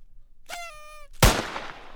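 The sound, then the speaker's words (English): A single sharp gunshot from a gun cocked and twirled like a cowboy's, fired indoors in a house. It is preceded by a brief high, slightly falling tonal whine. The loud crack decays quickly into noise. “You cocked it and twirled it and then shot it at the same time.”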